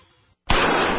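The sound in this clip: A .44 Magnum fired at a Traumamax hybrid Kevlar bulletproof vest: after a brief silence comes a single sharp, loud blast whose roar carries on to the end.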